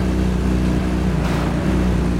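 A car drives in a video game, heard as a steady, loud engine drone with broad rushing noise and a low hum that holds level throughout, with no voices.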